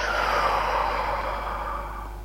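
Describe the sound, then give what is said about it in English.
A long, slow exhale during a guided relaxation breathing exercise: a steady, breathy hiss that fades slightly toward the end over a low, constant hum. “and exhale, and one last time, inhale and exhale.”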